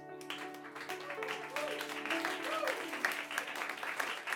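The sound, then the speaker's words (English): An audience applauds at a music performance, a faint, steady patter of clapping that continues throughout, with voices audible over it. “Round of applause for Johnny Ciccolella. He's amazing.”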